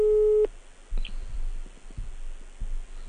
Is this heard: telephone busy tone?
yes